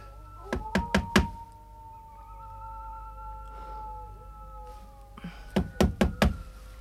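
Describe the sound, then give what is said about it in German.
Knuckles rapping on the open front door of a house: a quick burst of about four sharp knocks, a quiet pause with a faint sustained tone, then a second burst of several knocks. “trotzdem klopf lieber an”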